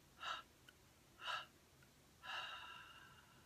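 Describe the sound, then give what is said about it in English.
Three exhalations out through the mouth during a guided meditation breathing exercise: two short, soft breaths a second apart, then a longer, trailing third exhale, all faint and breathy. “we're going to release the technique with a normal inhalation and exhaling three times out of the mouth”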